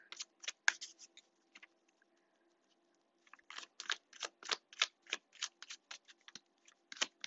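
Tarot cards being shuffled, crisp rapid snapping flicks in two busy runs separated by a short quiet pause, fairly soft and heard alone.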